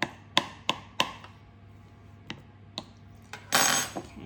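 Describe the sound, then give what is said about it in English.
A fork pokes holes in a pie crust base in a dish for a ruby red grapefruit pie, making several sharp, irregular clicks, a quick cluster early then sparser taps, with a brief rougher scrape near the end. “We will need a fork now to poke some holes in the bottom of the base. That just helps it not to puff up too much in the oven.”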